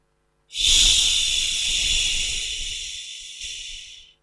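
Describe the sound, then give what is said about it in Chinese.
A slow, steady exhale voiced as a long hissing 'xi' during a breathing exercise, one continuous airy hiss lasting about three and a half seconds that gradually fades toward the end. “呼的时候要发吸的音。 哎，就是缓慢的呼气。”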